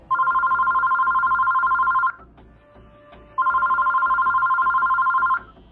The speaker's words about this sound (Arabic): رن تليفون المكتب